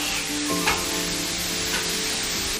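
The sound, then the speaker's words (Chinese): Stir-frying of bean sprouts, homegrown red peppers and plain firm tofu dumped into hot oil in a wok over a stove fire: a steady, loud sizzle runs throughout, with a few scraping stirs breaking through. “烧灶热油，配菜一股脑倒入，翻炒全凭经验。”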